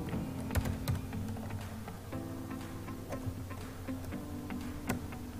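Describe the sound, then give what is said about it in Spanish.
Computer keyboard typing as the word Word is entered into the Windows Start menu search, with many quick, light key clicks in an irregular rhythm against a low steady background hum. “busco el icono de Word, si no lo tengo, lo voy a buscar, escribo Word.”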